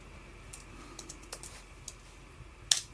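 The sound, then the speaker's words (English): Someone types a search query on a computer keyboard. A handful of faint, sparse keystrokes are scattered through the quiet, and one sharper, louder keystroke lands near the end. “Let's type that in.”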